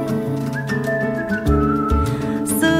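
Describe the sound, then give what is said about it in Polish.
A person whistling a tune within a Polish pop song, a thin, clear whistled melody with a long held note riding over full musical backing. “Gwiżdżę sobie”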